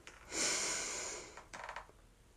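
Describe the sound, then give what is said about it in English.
A person takes deep breaths, with one long, loud rush of air followed after a short pause by a shorter, softer breath. Both are breathy and noisy with no voice. “And let it out. And deep breath in again.”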